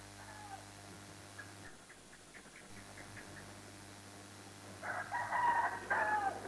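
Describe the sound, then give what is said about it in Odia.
A rooster crows once near the end, a loud, high, wavering call that rises above a steady low hum. Faint short chirpy sounds occur earlier. “ହେଇଟି କୁକୁଡ଼ା ଡାକିଲେ, କୁକୁଡ଼ା ଡାକୁ କି ଚଢ଼େଇ ବୋବୁ, ହାମ ସବୁ ନାହିଁ ଶୋଏଗା।”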